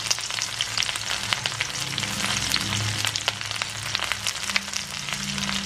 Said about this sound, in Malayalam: 3-4 spoon തേങ്ങയും കൂടെ അതിനകത്ത് തന്നെ ഇട്ടേക്കാം. എല്ലാം കൂടെ മൂത്ത് വരട്ടെ.